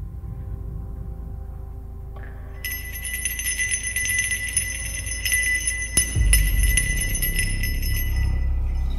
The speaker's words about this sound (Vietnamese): kéo theo là âm thanh lanh lảnh. Hiếu rùng mình khi nhận ra đó là tiếng chuông dẫn vong.